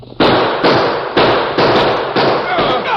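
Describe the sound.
Gunshots in a radio western drama: six sharp, loud bursts fired at a steady, roughly even pace, each leaving a short noisy decay before the next.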